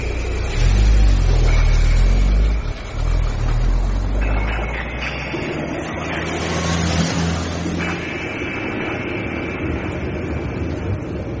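A car drives out of town. A loud, low engine roar fills the first couple of seconds, then settles into a steady droning rumble of engine and road noise.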